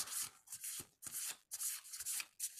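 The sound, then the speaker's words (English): A deck of cards is shuffled for a card pull, heard as several quiet bursts of rubbing, riffling friction separated by short pauses, with no talk. “We're gonna do a card pull. All right, go. Let me know when to stop.”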